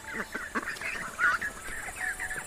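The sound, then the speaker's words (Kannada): Group of ducks quacking together by a river in the evening: overlapping nasal honks and quacks in a busy, continuous chorus at moderate loudness, with no talking. “ಆಮೇಲೆ ಆ ಬಾತುಕೋಳಿಗಳ group ಅಲ್ಲಿ ಬರುತ್ತೆ.”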